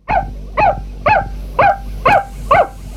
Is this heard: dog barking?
yes